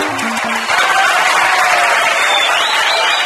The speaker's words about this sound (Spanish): ¡Aplauso para este cantor!